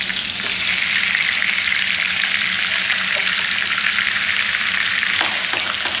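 Butter frying in a pan over moderate heat gives a steady, loud sizzling hiss that runs unbroken through the whole clip, with a few faint clicks near the end.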